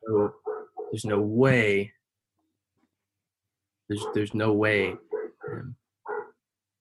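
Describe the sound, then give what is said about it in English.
A dog barks and yelps in two bursts of several sharp, high calls, some drawn out and wavering, with a quiet pause between the bursts. “there's no way to stop that dog from barking.”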